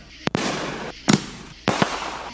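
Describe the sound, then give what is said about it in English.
Fireworks explode at a Fourth of July celebration in Tulsa: several sharp, loud bangs in pairs and singles over a steady crackling hiss. “Tulsa celebrates the 4th of July. There was apple pie, hot dogs, and fireworks.”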